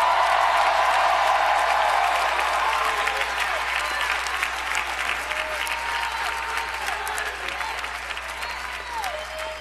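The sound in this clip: Church audience applauding and cheering, with dense, steady clapping and scattered high shouts and whistles that stay loud throughout and ease off slightly toward the end.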